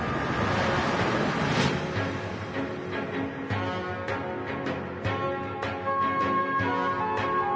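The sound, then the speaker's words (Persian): A reconnaissance boat pulls away across the water, its engine a steady low drone with a faint wash of water and scattered light clicks, quiet and continuous throughout. “جابر با سمایی برمیگرده و قایق شناسایی هم از محل فاصله میگیره.”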